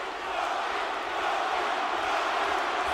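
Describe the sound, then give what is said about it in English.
A wrestling arena crowd chants Rocky in a loud, dense, sustained roar of many voices that holds steady throughout. “Rocky chants filling the arena.”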